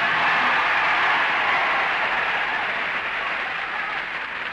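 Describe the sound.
Studio audience applause at a televised talent contest, cheering a soprano's performance as a clapometer gauges the reaction: dense, steady clapping that holds at an even, loud level for the whole stretch, with no voices standing out.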